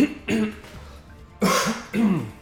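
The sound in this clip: A person clears their throat and coughs in three short, rough bursts separated by brief pauses.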